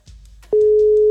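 Telephone ringing tone on a call: a steady, loud, mid-pitched beep cuts in partway through and holds level to the end, preceded by faint clicks and low background noise.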